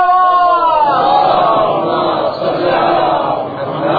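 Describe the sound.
A crowd at a religious sermon shouts back in unison to the Naara-e-Haideri chant. Many voices form one loud, sustained, rising cry that wavers and fades slightly toward the end.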